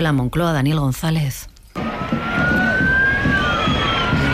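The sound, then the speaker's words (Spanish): Police sirens wail over a street demonstration at the Moncloa arch, where protesters tried to push through a police cordon. A man speaks briefly, then a steady siren tone rises slowly above a dense, continuous crowd roar. “ese es el sonido de la manifestación que acababa en el Arco de Moncloa”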